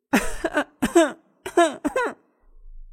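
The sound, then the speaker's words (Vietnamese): Coughing from two people, embarrassed: several short voiced coughs and throat-clearing bursts in quick, uneven succession, fairly loud, then silence. “Hai người bật lên tiếng ho, lại nghĩ tới cái quái gì thế này, mặt đều nóng hết cả lên.”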